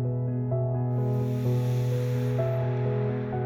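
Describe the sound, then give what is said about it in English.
A slow, deep inhalation during a guided meditation, a steady airy hiss that swells in and holds over soft, sustained music tones. “Slow down your breath. Inhaling the air deep down.”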